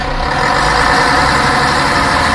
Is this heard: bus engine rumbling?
yes